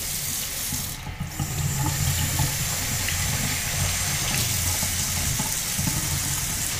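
Dishes being rinsed under a running kitchen tap, the water flowing in a loud, steady rush that stays constant from start to finish.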